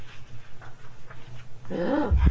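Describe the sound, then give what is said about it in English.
A dog barks on command with a short, whiny, high-pitched cry, then a few low, gruff bursts at the end, after a quiet stretch of soft rhythmic sound. “Bow wow. Yeah. Bow wow. Is that what your dog says?”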